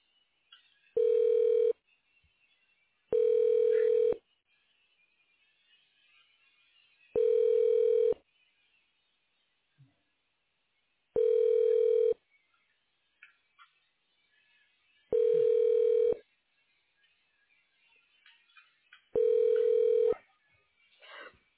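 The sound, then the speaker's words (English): Six steady, even bursts of telephone ringback tone sound while a call to a radiology department is transferred to voicemail. Each tone lasts about a second, with long, near-silent gaps between them. “I'm going to transfer you to leave a voicemail, okay?”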